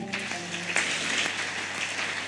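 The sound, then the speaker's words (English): Clapping from a church audience for a pastor, starting after a brief held tone and continuing as a steady, fairly soft patter of many hands. “let's also clap for Pastor Rudolph”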